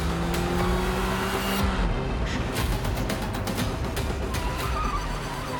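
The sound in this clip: Car driving fast with the driver pressing the accelerator: a continuous, loud, dense roar of engine and road noise that holds steady throughout, with no voices.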